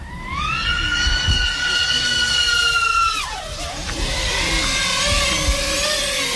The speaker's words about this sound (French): Je viens préarmer mon drone et l'armer, et là je suis en mesure de décoller. Ce qu'on peut voir, c'est que le FPV c'est aussi très rapide, on va le voir, je vais faire une accélération.